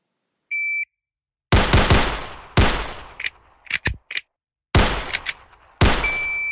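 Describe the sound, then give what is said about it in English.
Pistol shots on a shooting range course: an electronic start beep, then several loud, sharp cracks with ringing tails at uneven intervals, with fainter clicks between them. “Lower left target, you have 5.5 seconds. Take your time, make them count. 3 rounds, 5.5 seconds. Shooters ready, stand by.”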